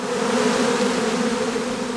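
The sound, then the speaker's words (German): Honeybees buzzing in front of their hive: a dense, steady drone of many insects that stays continuous and fairly loud throughout, with no voices. “Wie viele Bienen befinden sich da gerade wenige Zentimeter vor meiner Nase?”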